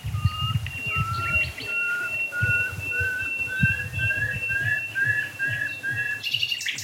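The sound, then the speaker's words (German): A nightingale sings a rapid run of repeated clear whistled notes at a steady rhythm over a low rumbling background. “Oh, Nachtigall.”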